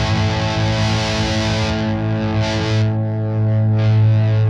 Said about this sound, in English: It really jumped in the last like 30% of the knob, and that's where you get like the high gain.